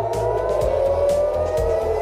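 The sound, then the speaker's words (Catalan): An air raid siren sounds in Tel Aviv as a loud, steady sustained tone that holds unbroken throughout, with low rumbling bursts underneath. “Aquest era el so de les sirenes a Tel Aviv”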